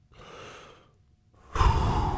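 A person pants to catch their breath after jogging up a flight of stairs. A soft breath comes first, then a brief pause, then a loud, rough, close exhale. No talking is heard.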